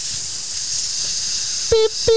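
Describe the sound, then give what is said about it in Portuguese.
An air hose fitted to a car tyre valve gives a steady, loud hiss of rushing air, then two short tonal beeps sound near the end. “A mangueira aquela, prende aquela, no pneu, aí você puxa aqui um pouco. Aí vai, puxou, vai... Que você dá uma levantada aqui. Desrosquei aqui o pneuzinho, enfiei, apertei a válvula.”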